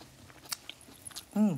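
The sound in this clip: Faint crunchy chewing of Swiss chard, a few soft, quick bites. It ends with a brief hummed 'mm' of enjoyment.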